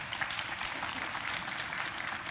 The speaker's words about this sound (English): now I do notice that the clapping's real sparse on this, but you're hearing it, whether you believe it or not